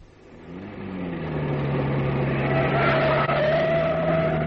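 A car is driven in 1930s Cornwall, its engine hum swelling from quiet to a steady, loud drone. A higher whine joins partway through, with no voices.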